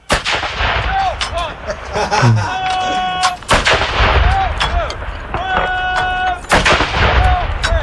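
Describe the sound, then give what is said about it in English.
Heavy booms of a 21-gun salute sound effect, several loud blasts sounding alone at irregular intervals, each a sharp crack with a rumbling tail. “So we'll give you the highest honor that we can bestow upon somebody in the show. And that's the 21 gun salute.”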